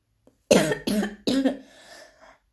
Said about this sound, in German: Sorry, Leute. Ja, verschluckt.